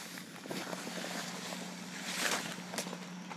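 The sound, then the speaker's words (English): Steady, breathy whoosh of a fan blowing inside a humid tent pitched on a field for aerial trapeze and rope practice, with a low constant hum beneath and a few faint soft knocks, no voices. “I hear a fan or something blowing.”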